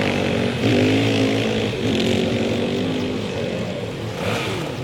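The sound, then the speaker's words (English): A dirt bike engine revs in a zombie video game as the rider heads through a park, a buzzing, raspy motor drone that surges upward in pitch a couple of times and holds loud and steady throughout. “I'm gonna have to head through the park on my bike if I'm gonna have any hope of making it.”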